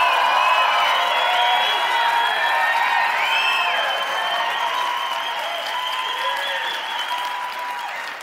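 An audience applauds and cheers at a live-streamed show. Dense, sustained clapping with crowd cheers and a few whoops rolls on steadily for about eight seconds.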